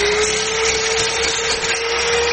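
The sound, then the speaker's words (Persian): An electric saw cuts wood in a carpentry workshop in Qala-e-Naw, Badghis, giving a loud, constant whirring roar with a steady high motor whine and no pauses. “عبدالباقی در دوکان نجاریش مصروف برش چوب توسط دستگاه برقی است.”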